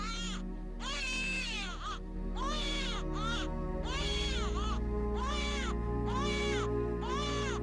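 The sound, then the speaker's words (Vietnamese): A newborn baby wails loudly just after birth, many repeated high, arching cries in a steady rhythm with short gaps, over a low continuous hum. “Khi tiếng khóc như xé vải vang lên, mặc dù lúc ấy rất mệt, Hiền vẫn cố ngẩng đầu lên để nhìn bác sĩ đang bế đứa bé đỏ hon hòn trên tay.”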